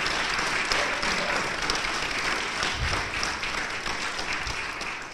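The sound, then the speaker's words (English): Audience applause for a panel at a live event in a museum's dinosaur hall: dense, continuous clapping throughout, easing slightly toward the end. “Let's hear it, audience, for our dinosaur panel.”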